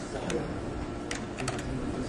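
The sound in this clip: A few light keystrokes on a computer keyboard as words are inserted into existing text, short faint clicks spaced unevenly over a steady background hiss.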